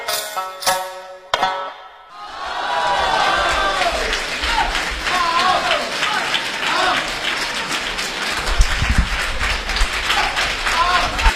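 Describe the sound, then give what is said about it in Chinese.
Applause from a full crosstalk comedy theatre audience. After a short opening sound, dense clapping rises and carries on steadily, with voices mixed into the crowd. “您呢也别吝惜了您的掌声，本期录音依旧来自胜利影院的满座相声剧场。”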